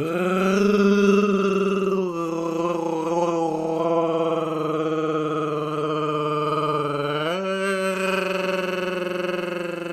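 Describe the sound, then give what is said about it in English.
A voice imitates a long, growling alien creature roar: one sustained, loud, harmonic groan held for about ten seconds, shifting slightly in pitch early on and stepping higher near the end. “your longest sustained Chewie impression”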